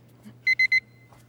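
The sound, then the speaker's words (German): Three short, high-pitched electronic beeps sound in quick, evenly spaced succession after a moment of near quiet, loud against a faint low hum. “Machen Sie dieses Piepen weg, ja, sofort!”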